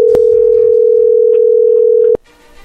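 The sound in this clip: A telephone dial tone holds one steady pitch for about two seconds between two sharp clicks, then cuts off abruptly and leaves a faint line hiss.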